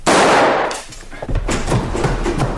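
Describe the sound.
A single revolver shot cracks out loud at the start and trails off in a noisy decay, followed by a scatter of fainter knocks and thumps.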